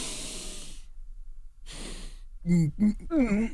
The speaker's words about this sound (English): you breathe in deep, but you gotta breathe in through your nose, but it has to be audible.